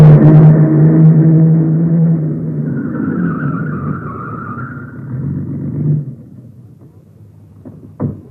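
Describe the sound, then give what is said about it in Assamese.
A car pulls up at a gateway and stops: a steady low engine rumble that gradually eases, then drops away around six seconds, leaving quiet with a brief knock near the end. “এই পদূলিতে গাড়ী এখন ৰোৱা যেন পালো”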